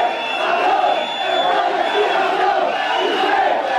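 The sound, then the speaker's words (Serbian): Loud, dense crowd shouting with whistling mixed in: Spain fans jeering and hurling insults at footballer Piqué as he walks onto the pitch at a national team training camp. The roar stays steady and unbroken throughout. “U trenutku kada je Piqué izlazio na teren trening kampom, čuli su se glasni zvižduci i uvredljivi povici koji su mu upućeni.”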